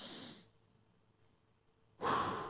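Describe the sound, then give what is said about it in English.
Deep breathing by a person demonstrating calming breaths for a panic attack. A brief breath opens, then a near-silent pause, then a loud, airy inhale. “What do they teach you when you're having a panic attack? Breathe in.”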